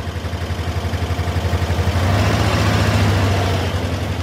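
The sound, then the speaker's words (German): Old VW Beetle with an air-cooled boxer engine running: a steady, heavy low throb with an even pulsing rhythm that grows slightly louder partway through. “Ein alter VW-Käfer mit einem sogenannten Boxermotor, der klingt wie eine schwere Maschine.”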